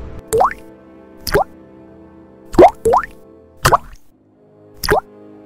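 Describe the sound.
Water dripping from a leaking ceiling during heavy rain: six loud, distinct plops at uneven intervals, each with a quick upward-sweeping watery pitch, against otherwise quiet surroundings.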